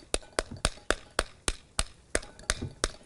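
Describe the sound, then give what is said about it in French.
Knocking on a halved pomegranate to shake loose its seeds: a steady, evenly spaced series of about ten sharp, dry taps with quick decays, alone with no voices. “On tape volontairement dessus et tous les, tous les grains de grenade vont tomber.”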